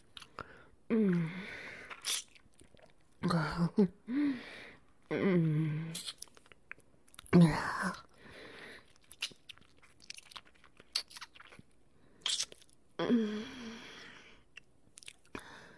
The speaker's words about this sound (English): Another little bite wouldn't hurt, would it?